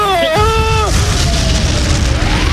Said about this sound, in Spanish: A ver, que tiene una bomba y esto va a explotar.